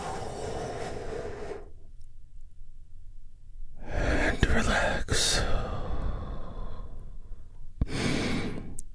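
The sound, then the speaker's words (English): Slow, deep breaths are drawn in and let out during a guided relaxation exercise. A few long, airy whooshes come one after another, with silent pauses between them. “Take another big, deep, healing breath with me right now.”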